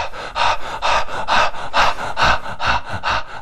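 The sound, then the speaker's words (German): Fast, forceful breathing in a breathwork practice: many rapid, loud, rhythmic breaths, each a breathy rush, following one another steadily without pause. “atme schneller, kräftiger, wurscht, wie du das hinkriegst.”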